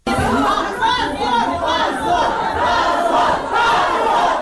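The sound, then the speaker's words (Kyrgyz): Uproar from people gathered in a courtroom as a court panel's decision is announced: many voices shout and clamor at once in a loud, dense roar that stays unbroken throughout. “Соттор коллегиясынын чечими залдагы чогулгандардын ызы чуусу менен коштолгондуктан”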